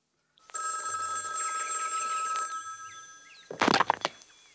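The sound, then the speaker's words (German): A telephone bell rings in one long, bright, sustained ring. It stops, and after a short pause a brief clatter of knocks follows. “Am 11. März klingelte bei Condon das Telefon.”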